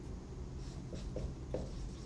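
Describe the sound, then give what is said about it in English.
Marker drawing on a board, a few faint squeaky strokes as a square with a line down its middle is sketched, quiet and alone. “So on the board, I'm drawing our own diagram. Remember that thing? So we got two sides to this. I'm drawing a square with a line down the middle.”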